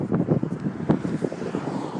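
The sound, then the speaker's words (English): Cold wind blows outdoors and buffets the microphone in irregular low gusts and rumbling thumps that rise and fall unevenly. “And this wind here again. It's cold here.”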